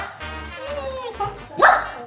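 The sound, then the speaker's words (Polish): A dog gives a short bark with a sharp yip near the end, alongside a speaking voice. “Wie to chyba każdy, kto ma kota czy psa. No bo jak tu nie kochać takiego merdającego ogona i uślinionej mordy, prawda, Miśka”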